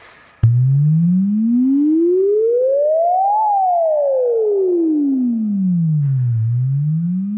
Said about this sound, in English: So a sine is at a pure tone at a single frequency